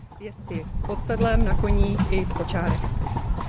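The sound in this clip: Hooves of riding and carriage horses clip-clop steadily at a national stud's festive end-of-season ride, continuing without pause under people talking throughout.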